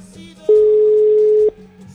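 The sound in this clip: A telephone line tone plays as a call is dialed: one loud, steady, mid-pitched tone holding for about a second, with a low hum around it.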